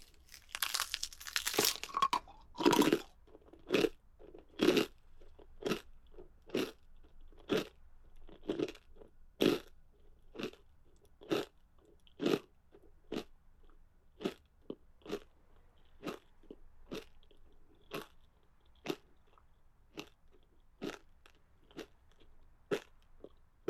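Loud, crunchy chewing of food in the mouth: many sharp bites and crunches in a steady, even rhythm, denser and noisier at the start, then spaced regularly until the end.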